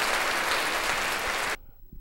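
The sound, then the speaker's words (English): Audience applause for a guest: dense, loud, continuous clapping that cuts off abruptly just before the end, leaving near-silence. “Give him a little applause.”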